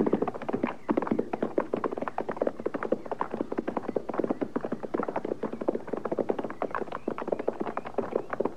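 Horses' hooves clip-clop as riders near a shack out in open country, a dense, steady run of many hollow clops and taps with no voices.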